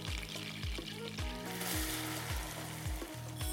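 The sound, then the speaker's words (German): Nuts sizzle in melted butter in a pan with a soft, steady hiss and light crackle, faint throughout. “Butter wird erstmal geschmolzen. Als nächstes kommen unsere Nüsse dazu.”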